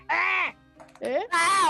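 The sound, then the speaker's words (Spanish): A human voice imitates a crow's caw, giving three harsh, nasal cawing calls, the last one longest, with a short gap after the first. “Efectivamente, un graznido de cuervo.”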